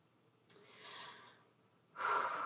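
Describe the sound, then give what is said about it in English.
Breathing in a guided breathing exercise: a sharp, airy intake that stretches for about a second and fades, then a short pause and a louder, rushing exhale. No one talks. “Three inhales and a good exhale. It's very cleansing.”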